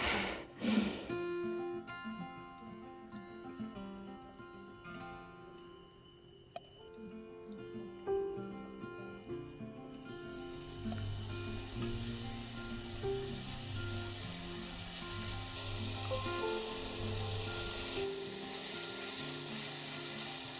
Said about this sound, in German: Jetzt, wo die Zwiebeln so leicht goldig angedünstet sind, tun wir unseren Tomatenmark hinzufügen.